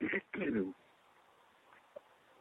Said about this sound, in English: Excuse me, I had I took a drink and something went down the wrong pipe.